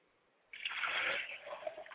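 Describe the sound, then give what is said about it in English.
Liquid poured out as a libation in a remembrance ritual: a steady splashing pour that begins abruptly after a moment of near silence and runs to the end. “And as we pour the libation for those babies who have transitioned and passed on from the womb, we pour libations today for those babies who've made their transition.”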